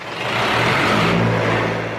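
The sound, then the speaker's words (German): A diesel generator runs in a garment factory in Bangladesh, a loud, steady low engine drone with a constant hum that holds throughout. “Noch läuft der Generator in Hassans Fabrik, von dem die Stromversorgung abhängt. Doch der Dieselkraftstoff ist rar und teuer.”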